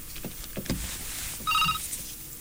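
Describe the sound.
Telephone ringing: one brief burst of bright electronic ring tones partway through, heard over soft background noise.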